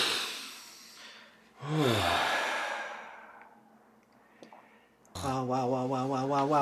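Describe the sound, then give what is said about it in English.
Deep breathing by a person: a few slow, loud breaths drawn in and let out with a soft rush of air, ending in a drawn-out voiced sound. “Take a deep breath. Take another deep breath.”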